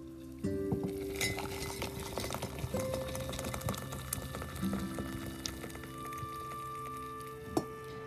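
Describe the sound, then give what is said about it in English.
A spoon clinks in a cup while instant Nescafe coffee is stirred with cream and sugar: many light, faint metallic taps and ringing chinks, scattered irregularly, with one sharper clink near the end. “Now that is the sound of heaven. My little bit of cream, my lot of bit of sugar, and my delicious Nescafe.”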